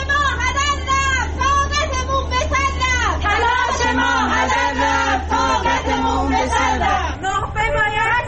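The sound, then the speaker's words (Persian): A crowd of protesters in Tabriz chants loudly, many voices rising and falling together in rhythmic phrases over a steady low hum that cuts out near the end. “این صدای معترضان در تبریز بود.”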